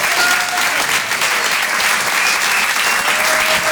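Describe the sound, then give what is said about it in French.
Theatre audience in Paris applauding a comedian, a dense, steady burst of clapping that holds at an even loud level from start to finish. “Faites un maximum de bruit, s'il vous plaît, pour Guillaume Guisset.”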